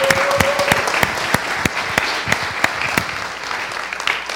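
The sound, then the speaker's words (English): Church audience applause welcoming a guest to the platform: dense, steady clapping that holds at an even loudness for over four seconds, with a few sharper individual claps standing out. “Can you give him a great big hand this morning?”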